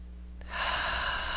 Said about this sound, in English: Nice deep breath.